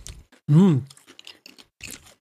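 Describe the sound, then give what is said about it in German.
Someone munches crisp sour cream and onion snacks. A short hummed vocal sound comes first, then a run of faint, crackly crunches and chewing clicks. “Oh, die schmecken frisch. Es hat nicht dieses Muffige. Das ist wie Pringles, Sour Cream and Onion, aber die Zwiebel ist ehrlich.”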